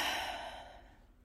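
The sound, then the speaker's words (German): A long, deep breath during a guided breathing exercise: a soft, airy rush that is loudest at the start and fades steadily over about a second, heard alone without talk. “Und dann atme mal ganz tief ein”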